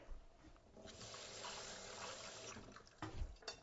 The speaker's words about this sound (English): I'm going to grab some cilantro here. Just a couple handfuls. Give it a rinse.